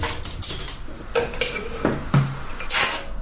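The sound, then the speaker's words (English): Pots and dishes being washed up in a sink clatter and knock together with scraping and splashing, a continuous busy rattle with a few louder clanks. “You do it in a sink. Yeah, washing the pots, washing up.”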